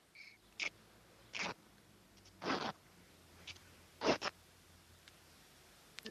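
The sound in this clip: A towel being torn apart into smaller pieces by hand: a few short, rasping rips with quiet pauses between them, some coming in quick pairs.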